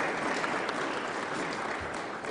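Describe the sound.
Audience applause welcomes a speaker at an evening worship gathering. Steady, moderately faint clapping continues evenly through the short stretch with no voices.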